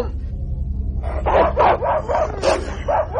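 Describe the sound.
A dog barks in a string of sharp yips and whimpering barks with short gaps between them, loud over a low steady rumble.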